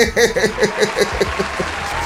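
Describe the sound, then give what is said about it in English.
A canned applause sound effect plays from a soundboard button, with clapping that pulses unevenly at first and then settles into a steadier, softer wash. “Hold on. Let me get this ready for you. There's the applause button right there.”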